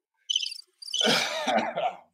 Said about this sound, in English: Crickets.